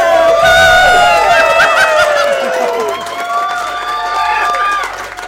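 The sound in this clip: A live audience cheers, whoops and shouts in high voices for two hosts taking the stage. The cheering is loud and continuous, easing off slightly partway through.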